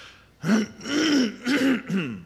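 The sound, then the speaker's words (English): A man with allergies clears his throat: four rough, rasping voiced bursts in quick succession, each a short guttural hack, fairly loud and alone. “When it gets that bad, you just stop and clear your throat. I do apologize for that.”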